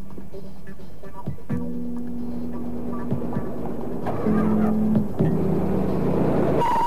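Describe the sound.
A car approaching, heard as a steady engine hum with a low droning tone that grows somewhat louder in the second half.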